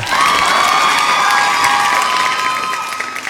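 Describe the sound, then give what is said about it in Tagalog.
An audience applauds and cheers for the Pokemon Unite team, a loud, dense wash of clapping mixed with high shouts and whoops that holds steady and then eases slightly. “But palakpakan muna natin sila.”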